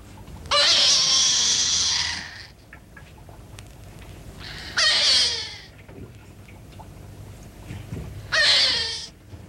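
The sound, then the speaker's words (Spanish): A hungry baby cries in three long, loud, high-pitched wails separated by quieter gaps, each cry sustained for one to two seconds. “No es cierto, está llorando porque ya tiene hambre.”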